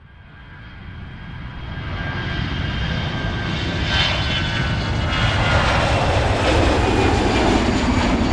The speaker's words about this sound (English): 6007, bound for Charlotte, reports fumes in the cockpit and diverts to Greensboro Airport. The Embraer 145 has 39 people on board.